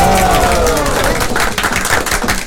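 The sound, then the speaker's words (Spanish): Loud, dense applause for older adults after a performance led by a teacher, with sharp claps throughout that thin out slightly toward the end. “Vea nomás, sí, se merecen más fuerte el aplauso.”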